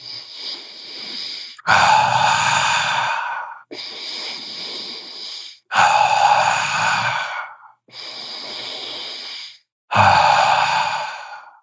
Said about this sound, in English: Inhale through your nose, exhale through your mouth like a circle.